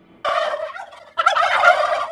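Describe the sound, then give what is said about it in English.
Turkeys gobble in two loud, rapid warbling bursts, one straight after the other, with no other sound between them. “those aren't the actual turkeys that attacked Dionne”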